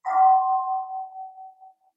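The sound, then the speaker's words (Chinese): A bell struck once, ringing a clear mid-pitched tone that starts loud and slowly fades away over about two seconds, heard alone with no talk. “听这个钟声”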